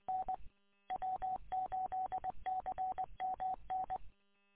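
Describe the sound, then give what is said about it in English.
Telephone keypad dialing tones heard during an amateur radio exchange while placing a call to the Philippines: many short, steady beeps in quick, evenly paced clusters separated by brief gaps, with no voices. “I gotta call the Philippines and see if I can get this phone number straightened out.”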